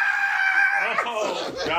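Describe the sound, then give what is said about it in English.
A man lets out a shrill, bloodcurdling scream as a cry of triumph, holding a sustained high pitch for about a second before it breaks into rougher vocal sounds and voices. “So I'm gonna have to do, you know what I'm saying, the blood current scream, you know, because that's a sense of like triumph.”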